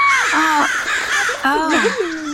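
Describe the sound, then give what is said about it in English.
A crow caws several times, each call harsh and wavering in pitch, with the calls coming close together over a continuous background. “A crow poked your eyes.”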